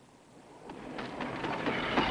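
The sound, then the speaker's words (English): A train pulls into a daytime station: a broad rumble grows steadily louder while several sharp wheel clacks punch through it. “As the train pulls into the station, Yuri runs alongside,”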